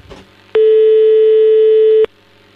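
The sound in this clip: Ringback tone on an outgoing telephone call: a single loud, steady beep about a second and a half long at one unchanging pitch, with no talk over it.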